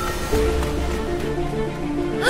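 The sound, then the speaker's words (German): A huge wave surges in toward a harbor like a tsunami, a loud, steady roar of rushing water that fills the whole clip over a tonal musical backing. “Seht, da hinten kommt eine riesige Welle. Ihr solltet hier schnell verschwinden.”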